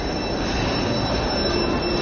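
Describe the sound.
Commuter train wheels squeal on the rails on the line into Gare du Nord. The sound is a steady, continuous metallic screech over a rumbling roll, with no pauses.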